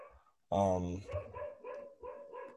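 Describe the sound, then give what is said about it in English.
A female dog barks agitatedly: one loud, sharp bark followed by a run of shorter, quieter barks and yips in an uneven rhythm. “This is annoying. This is really, she is losing her mind. Yeah, I think. Ladies and gentlemen, that is my dog, Lucy.”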